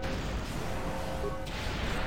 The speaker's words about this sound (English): I didn't even realize you were throwing grenades at me. Arsehole. You're just throwing grenades down the hallway.